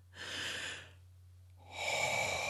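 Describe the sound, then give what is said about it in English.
A deep breath drawn in, a soft airy rush that swells and fades, then after a short pause a second, fuller breath begins over a faint low hum. “Now open your eyes, action taker, take a deep breath in.”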